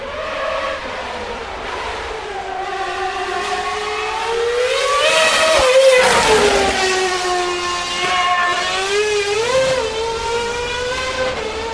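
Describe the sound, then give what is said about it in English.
A Red Bull RB7 Formula One race car roars past with a loud, high engine whine that climbs in pitch as it nears, peaks in loudness midway, then drops in pitch as it moves away, with no talk. “That was Buemi in the Red Bull RB7.”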